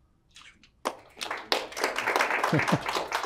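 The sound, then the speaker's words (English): Audience applause at the end of a lecture, starting with a few scattered claps and building into modest, uneven clapping, with a voice briefly audible near the end. “Exhausted applause.”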